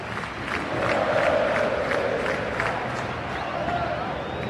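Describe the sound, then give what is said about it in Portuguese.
Football fans in the stadium stands sing happy birthday for Palmeiras on the club's 112th anniversary. Many voices blend into a dense, steady roar with a gentle rhythmic pulse. “E o parabéns rolando agora nas arquibancadas.”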